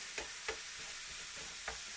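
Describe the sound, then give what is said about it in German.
Minced meat frying in a pan for spaghetti Bolognese while being stirred: a constant sizzling hiss with three soft scraping knocks from the stirring. No one talks. “Nebenbei immer das Hackfleisch ein bisschen hin und her mischen.”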